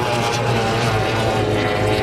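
A high-speed racing powerboat at a Formula 1 powerboat race on the water roars with a loud, steady engine drone that holds throughout.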